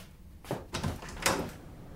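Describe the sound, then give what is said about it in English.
Front door being opened as birthday guests arrive: a few soft, short clunks and rattles spaced about half a second apart, then quiet, with no voices. “Okay, I'll get the door.”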